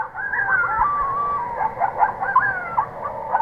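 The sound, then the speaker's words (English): Coyotes howl and yip at night, several wavering, high-pitched gliding calls overlapping one another and rising and falling continuously through the whole clip at a steady, moderate loudness. “A native of Wisconsin, Jacobson says she's especially fond of the howling coyotes. When the coyotes are calling, it makes me think of the desert in the Southwest.”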